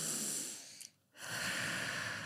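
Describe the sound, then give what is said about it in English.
Faint breathing of people holding hands in a plane at about 8,000 to 10,000 feet and matching their breaths: a sustained airy breath, a brief quiet gap, then another long breath. “we grab our hands like this and we synchronize our breath because it synchronizes our heartbeats.”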